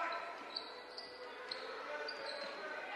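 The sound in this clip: A basketball is dribbled on court during a basketball game, giving a few faint, evenly spaced bounces roughly half a second apart, with a voice talking throughout.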